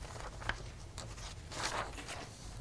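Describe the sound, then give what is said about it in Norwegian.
Pen or chalk strokes from a teacher drawing a small sketch of a balance sheet during a lesson. The strokes are faint, light and scratchy, with a few brief taps. “Jeg kan bare lage en liten skisse, bare for å antyde.”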